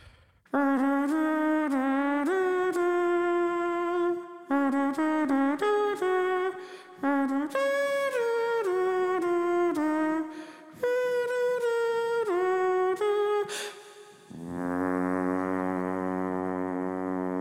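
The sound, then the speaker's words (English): A voice sings a melody in a run of held notes, then drops to a deep, buzzy, low tone imitating a foghorn, sustained steadily for about three seconds to the end. “It was like a foghorn noise. And I held it and I faded it out”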